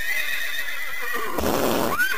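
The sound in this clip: A horse neighs near a parade, a loud whinny that breaks in partway through over a steady tonal background and ends with a bright, high, quivering call.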